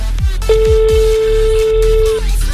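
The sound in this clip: A French telephone line rings unanswered during a prank call, sounding one long, steady tone at a fixed pitch. Thumping background music with a beat runs underneath.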